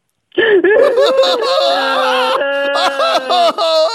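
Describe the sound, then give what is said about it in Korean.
A caller cries over the phone in a high, wavering voice that breaks into whimpers and shaky sobs, continuing for several seconds without pause. “울지 마, 울진 왜 울어?”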